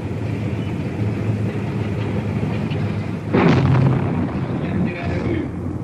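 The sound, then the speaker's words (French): Cannon fire and bullet impacts as a Russian tank fires grapeshot against a wall during the 1956 Hungarian revolution, near the Danube; two sharp bursts, the first loud and the second weaker, rise over steady rumbling noise. “Il tire à la mitraille, vous entendez les balles qui claquent contre le mur.”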